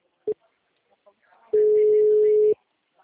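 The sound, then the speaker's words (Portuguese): Telephone ringing tone on an outgoing call: a brief beep, then one steady, mid-pitched electronic tone lasting about a second before cutting off, over faint background noise. “Eu vou ligar agora.”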